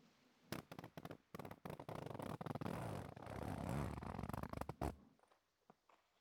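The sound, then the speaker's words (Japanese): A zipper is pulled down, giving a quiet series of rapid rasping ticks that run for a few seconds and then stop abruptly. “それじゃあファスナー下ろすね。”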